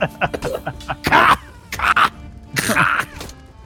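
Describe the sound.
A voice imitates coughing for a character stepping through a cloud of ash during a tabletop role-playing game, giving a few rough, throaty bursts mixed with voiced grunts.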